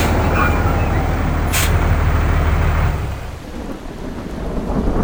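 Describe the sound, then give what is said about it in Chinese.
Heavy rain pours down at night during flooding, with water about a metre deep along a river embankment. The loud, steady roaring wash carries a low, thunder-like rumble and eases slightly partway through. “雨太大了，水又那么深”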